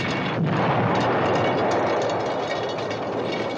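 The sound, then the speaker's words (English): Artillery fire from both sides at the front in Korea, a dense, continuous rumbling roar of overlapping blasts that never separates into distinct booms and stays loud throughout. “Artillery. Ours? And theirs.”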